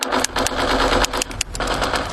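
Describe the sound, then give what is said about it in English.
Rapid video game gunfire plays as someone games with a controller: dense, loud bursts of automatic shots in an unbroken, stuttering stream, with a few sharper cracks punctuating the steady rattle. “can you put the video game controller down for a second? I can talk and play. Oh, I'm totally annihilating this punk kid in Nebraska.”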